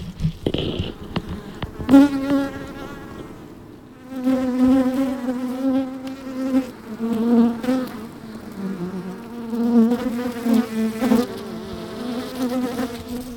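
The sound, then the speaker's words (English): Honey bees buzzing at a beehive entrance, recorded close up as pollen-laden bees fly in, a dense, continuous humming drone that swells and fades irregularly as individual bees pass, fairly loud and with no talk. “Isn't that a great sound? Not everyone loves that sound, but beekeepers do.”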